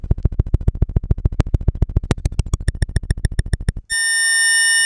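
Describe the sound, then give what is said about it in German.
Tone output taken directly from a function generator: a rapid train of loud, buzzy pulses that grows brighter, then an abrupt switch to a steady, sustained tone rich in harmonics. “Jetzt kommt es auch der Ausgang direkt aus dem Funktionsgenerator.”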